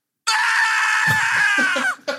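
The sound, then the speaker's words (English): A screaming sound effect of a man on fire: one long, harsh, high-pitched scream held for nearly two seconds that cuts off abruptly, followed by a brief final yelp. “That's the sound of a man on fire, literally.”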